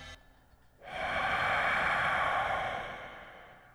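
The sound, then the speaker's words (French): Strange, unidentified breathing: a single long, rushing breath sound starts suddenly after a quiet moment, holds steady and loud for about two seconds, then slowly fades away. “entendre ça, des respirations indéterminées, étranges”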